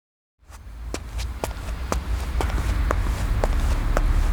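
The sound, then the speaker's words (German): Footsteps walking along a dark New York street in 1969, a steady, evenly spaced run of crisp steps over a low rumbling background that slowly swells. “Es ist der 27. Juni 1969, als Henry die dunkle Straße entlang läuft.”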